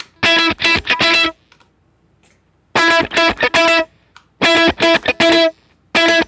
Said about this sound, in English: I might take the distortion off of this. Yeah, too